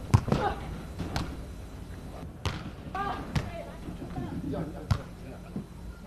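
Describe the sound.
Volleyball serves and hits in a Shenzhen city team match: a few sharp, hollow thuds of the ball stand out, spaced irregularly over a faint, steady hall ambience.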